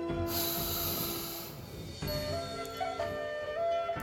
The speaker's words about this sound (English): Using your nose, slowly breathe in deep and even, letting your lower belly expand.